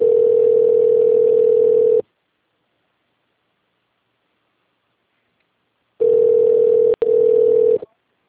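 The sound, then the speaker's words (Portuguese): A steady telephone tone plays while a call to a company's line connects to an extension. It sounds twice, each about two seconds long and separated by a few seconds of silence, and the second carries a brief break. “Digite o ramal desejado ou... Conectando.”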